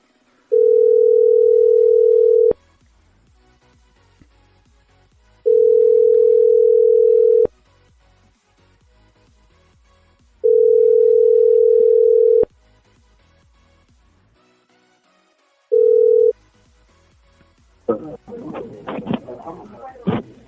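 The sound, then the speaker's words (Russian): Telephone ringing tone while calling a number: three long, steady, mid-pitched beeps separated by pauses, then a short fourth beep. Noisy sound and a voice follow when the line connects at the end. “Так, я ему с другого набираю сейчас.”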